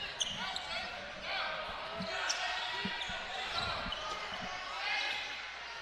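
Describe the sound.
Basketball dribbled on a court during the first half of a game, several dull thumping bounces over a steady bed of crowd noise.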